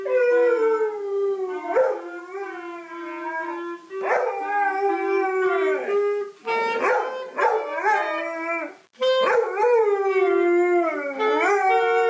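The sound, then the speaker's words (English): A white Labrador howls along with a child practicing the clarinet: long, wavering, sliding tones that repeat in a few sustained phrases, loud throughout, with brief gaps between them. “The next contestant in today's dog singing contest is another white lab who likes to sing with his fleshy kid as he practices his clarinet.”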